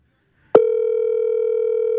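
A telephone dial tone sounds while a call is being placed: a short click, then a steady, unbroken mid-pitched hum that holds at even loudness to the end, with no talk.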